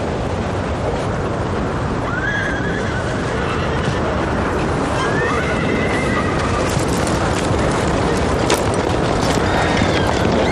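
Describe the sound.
A horse neighing: a few high, wavering whinnies that stand out over a loud, continuous rush of noise, with hooves clip-clopping underneath.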